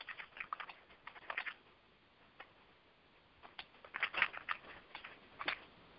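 Typing on a computer keyboard while entering text into Facebook: quick, light clicks arrive in uneven bursts, then a pause of over a second before another flurry of clicks. No one speaks.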